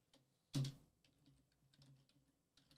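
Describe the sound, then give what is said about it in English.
Quick typing on a computer keyboard, with one sharp key strike followed by a scattering of faint, light taps against a quiet background. “But you spelled release date wrong. That's okay. Typing it quick.”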